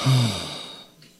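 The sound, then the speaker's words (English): A single audible breath: a soft, sigh-like exhale with a brief voiced edge at the start, fading out over about a second. “That's three breaths right there.”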